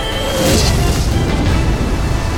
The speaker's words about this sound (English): Yellow light bloomed brilliantly behind him. A dark shape, the ruptured canister, tumbled at the front of what quickly became a rolling wave of flame.